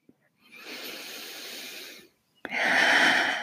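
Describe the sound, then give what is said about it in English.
Two slow, deep breaths taken during a guided invocation, each an airy, hissing rush of air. The first is softer and drawn out, and the second starts abruptly, louder and brighter. No one speaks. “Take a deep breath.”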